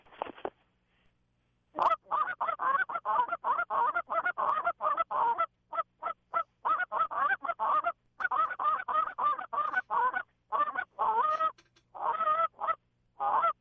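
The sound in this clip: A single goose caller blows a greeting call that imitates a flock: many rapid, loud honks and clucks in long runs, broken by a pause near the start and a few short gaps later.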